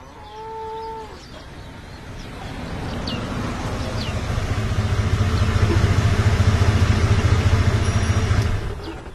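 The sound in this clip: A car engine idles at a police checkpoint as a low, steady rumble that grows louder and holds from the middle onward. It then fades at the end, with a brief tonal call near the start.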